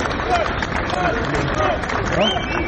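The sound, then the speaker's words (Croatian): A crowd of more than a thousand locals in Bujanovac, waving Albanian flags, applauds and cheers the visiting president of Albania. Clapping blends with raised voices and calls in a dense, continuous babble. “Dočekan je ovacijama i aplauzom.”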